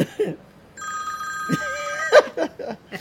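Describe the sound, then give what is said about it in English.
A mobile phone rings with a brief electronic warbling tone lasting over a second, heard under and between bits of talk. “Oh, excuse me, that's my phone. I'll just turn that off.”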